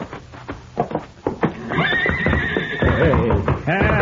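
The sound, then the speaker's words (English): A stallion kicking at its stall, with a few sharp knocks and thuds at first, then a long, loud whinny and further neighing. “Look at him kick at that stall. Yeah, he's going to be a handful, all right.”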